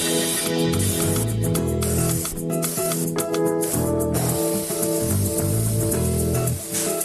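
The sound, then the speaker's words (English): Spray paint hisses into a crack in a short series of spurts, each burst of hiss separated by brief pauses, over a steady tonal background. “Put the paint where it ain't. Sounds good. What you want to do is get it in the crack.”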